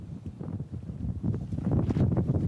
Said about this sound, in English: that wind has just picked up.